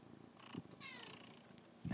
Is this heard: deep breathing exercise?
no

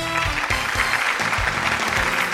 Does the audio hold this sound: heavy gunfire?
no

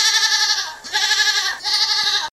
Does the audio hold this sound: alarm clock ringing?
no

